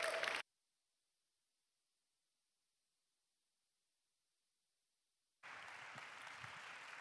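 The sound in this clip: A church audience applauds to welcome a guest pastor coming up to minister. A brief burst of clapping cuts off into several seconds of silence, then a longer round of steady applause begins.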